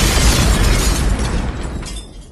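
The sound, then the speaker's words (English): A single loud explosion bursts out with a heavy boom, its roar decaying and thinning out over about two seconds. “These are songs you don't want to be associated with. It's a public service, friends. These are the bombs of the week.”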